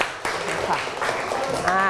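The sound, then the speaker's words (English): Classroom students clapping for a classmate, a brief patter of hands that starts after a short pause and runs on mixed with children's voices. “Clap your hand for your friend. Good job.”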